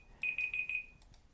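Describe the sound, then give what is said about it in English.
A buzzer alarm goes off with four rapid, high, even-pitched electronic beeps in a quick run, loud against a quiet background. “Here goes my buzzer. Let me turn that off.”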